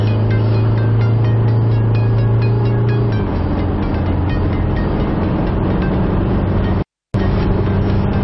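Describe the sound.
Isuzu mu-X SUV engine accelerating hard in a low gear after a downshift, 380 Nm of torque, with the pedal at half: a steady, loud drone with tonal hum. A lower tone drops away about a third of the way in, and a brief gap comes near the end.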